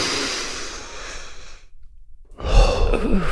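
A deep breath drawn in while the arms stretch straight up toward the ceiling during a standing exercise: a long, airy rush that stops abruptly, followed by a brief silence and then a further breathy, rustling stretch of sound.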